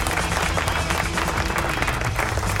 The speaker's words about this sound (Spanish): Aplauso, please. Aplauso, ahí está.